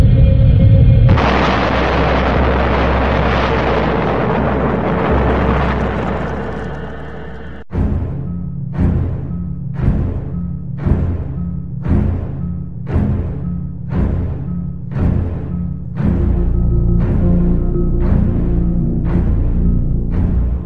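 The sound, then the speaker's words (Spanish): Explosion sound effect evoking the 1908 Tunguska blast over Siberia: a loud, broad, rumbling roar for several seconds, then a sharp crack that gives way to a steady run of regular, pulsing low thuds. “La región de Tunguska contempla la mayor explosión de la historia de la humanidad.”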